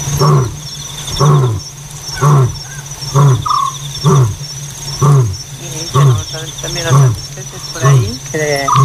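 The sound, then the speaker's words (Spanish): An African lion roars at night in a long series of deep, evenly spaced grunting calls, each rising and falling, about one a second. A constant high insect drone runs beneath them throughout. “El león tiene altavoz propio, decía Ramón Gómez de la Serna, una greguería. Y es verdad que parece como que amplifica su llamada, que se estira ahí por el fondo de la noche y ahí ensancha el paisaje.”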